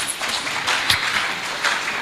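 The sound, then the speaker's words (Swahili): Audience applause at a youth finance and entrepreneurship seminar: a continuous wash of many hands clapping, with a few sharper claps standing out. “Naomba tumpigie makofi mengi sana.”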